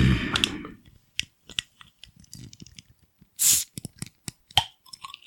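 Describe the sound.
A bottle of non-alcoholic wheat beer being opened: one short, sharp hiss of escaping gas stands out among scattered small clicks and handling noises.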